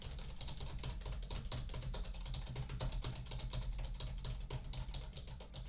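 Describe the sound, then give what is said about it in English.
Fingers type rapidly on a computer keyboard, a dense, unbroken run of many crisp key clicks at a steady pace over a low background hum, with no talk. “I typed on the computer.”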